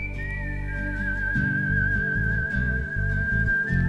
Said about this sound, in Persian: سوت میزنیم و سوت میزنیم و سوت میزنیم که شاید یکی یه جا صدامونو بشنوه.